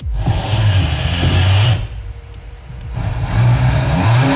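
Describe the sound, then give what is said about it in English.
Engine revving of a 2025 Ford Mustang GT Fastback with a six-speed gearbox: a loud, deep, throaty roar that holds, dips briefly to a quieter rumble, then surges loud again. “One car. One shot, one legend. The Ford Mustang GT Fastback.”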